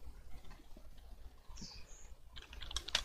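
Computer keyboard typing as a Skype contact name is entered: light, irregular key clicks, sparse at first and then a denser, louder run of taps near the end, with no talking.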